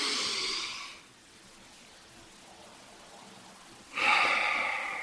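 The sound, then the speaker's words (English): Slow breathing, in through the nose and out through the mouth: one airy, hissing breath at the start, a quiet pause of about three seconds, then a second, louder breath. “I like to breathe in my nose and then out my mouth”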